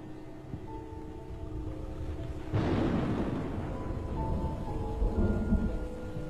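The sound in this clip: Quiet rain hissing steadily during a storm with lightning, joined partway through by a low, rolling rumble of thunder that thickens the sound and lingers to the end.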